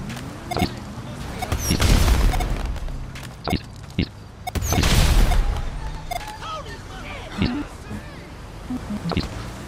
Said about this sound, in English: Sorry, your insurance doesn't cover explosion due to weaponized fireworks.